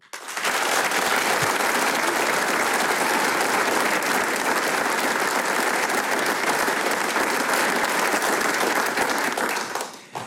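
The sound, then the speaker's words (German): Applause from the audience fills the Arbeiterheimsaal hall in Vonsdorf during a folk music program. Dense, even clapping holds at full strength throughout and drops away right at the end. “wie der Arbeiterheimsaal hier in Vonsdorf klingt, wenn er dieses Programm bejubelt, das klingt dann genau so.”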